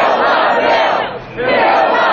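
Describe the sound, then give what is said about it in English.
A large crowd of protesters at a Capitol Hill rally in Washington against a health care bill roars and cheers in a loud, sustained wall of voices that dips briefly midway before surging back. “Opposition Republicans bent on killing the bill, like Indiana Congressman Mike Pence, whipped the crowd into a frenzy.”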